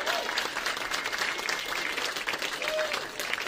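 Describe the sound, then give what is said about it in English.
Dense audience applause at a Roast Battle Chicago tournament battle, a steady, loud wash of many hands clapping that holds level for the whole stretch without a break. “Make some noise for everyone. So far.”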